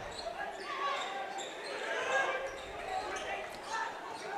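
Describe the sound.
A basketball is dribbled on a court during a game, with soft bounces nearly buried under a steady wash of crowd noise. Voices are heard throughout.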